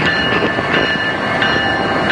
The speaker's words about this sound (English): So the train has lights on, even though it's during the day, and I don't think that's very necessary because we're standing in the hot sun, but it's like yellow and it has the Amtrak symbol on it, and it's not moving for some reason.